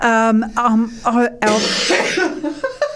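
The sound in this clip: A harsh, noisy cough bursts out amid laughing, voiced vocal sounds. The cough is loud and rough and lasts under a second, with voiced sounds before and after it.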